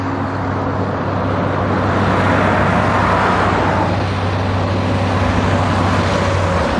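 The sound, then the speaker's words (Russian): A truck drives across a viaduct over a wooded lowland with a steady, loud rumble of engine and tyres. The droning road noise runs unbroken, over a constant low hum. “Грузовик по виадуку пересекает поросшую деревьями низменность.”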